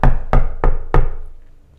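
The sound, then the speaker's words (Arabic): Knocking on a door: four firm, evenly spaced knocks, each a solid thud that rings briefly before the next, with the last one fading out alone. “يوجد دق على الباب.”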